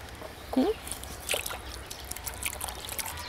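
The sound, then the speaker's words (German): Water is poured over an animal's sore, painful foot to clean it, a soft, faint trickling wash with a few brief splashes, while a voice speaks. “Okay, mal ein bisschen sauber machen. Erstmal sauber. Achtung, jetzt wird's nass.”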